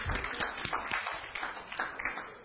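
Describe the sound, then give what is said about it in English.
Faint, sparse clapping from an audience during a church teaching session, scattered quiet claps rather than a full ovation, soft and uneven throughout. “Now you can clap. That was good.”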